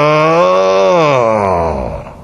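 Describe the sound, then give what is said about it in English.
A man imitates a heavy groan like someone lifting something heavy: one long, loud, voiced 'ugh' whose pitch sinks and fades toward the end. “My daddy was a great groaner. He sometimes would lift something that was heavy and he'd say,”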